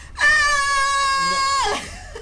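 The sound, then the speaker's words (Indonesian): A voice imitates a sad scream: one sustained, high wailing cry that holds a steady pitch, then drops sharply at the end before cutting off. “Dia ada menjerit yang excited, menjerit yang sedih macam kini.”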